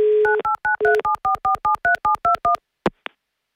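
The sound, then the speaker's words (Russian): A telephone dial tone gives way to a quick, even run of many keypad dialing beeps as a contestant is called during a game, followed by two sharp clicks on the line. No voices. “Звоним Алексею.”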